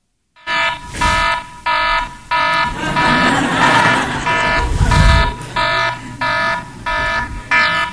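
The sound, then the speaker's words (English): An alarm clock rings with loud, repeated bursts of harsh electronic beeping in an even pulsing rhythm, continuing for many cycles with a noisier stretch in the middle. “Every morning we woke up with the alarm clock. And you can hear the alarm clock, the sound.”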